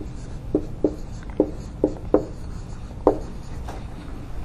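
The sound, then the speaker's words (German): Handwriting on paper, a series of short, scratchy pen strokes in an irregular rhythm, each a brief rasp with quiet pauses between them, no voices. “Schreib's einfach mal alle auf.”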